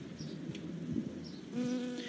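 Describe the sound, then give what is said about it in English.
A bee buzzes steadily while moving among flowers to gather pollen. The low, continuous drone grows louder and more tonal in the final half-second. “Now the bee has landed on a tall pink flower, which has very many petals. It's so busy.”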